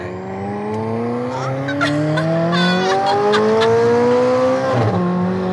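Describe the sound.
A high-performance car accelerates hard, its loud engine note climbing steadily in pitch, dropping briefly with a gear shift near the end, then rising again.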